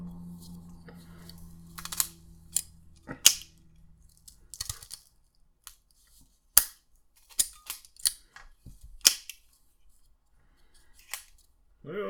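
Ben Maduro cigars being cut and lit produce scattered sharp snips and clicks, faint and spaced by quiet gaps, with a low hum fading out early on.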